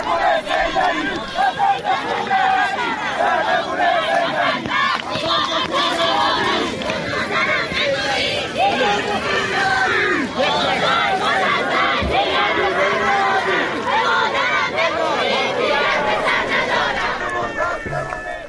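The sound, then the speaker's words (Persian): A large crowd chants anti-government slogans at a snowy, cold funeral for three people killed in Semirom, Iran. The massed voices roar loud and sustained throughout, one rhythmic chorus after another. “این صدای مردم سمیروم بود در مراسم خاکسپاری 3 تن از کشته شدگان این شهر.”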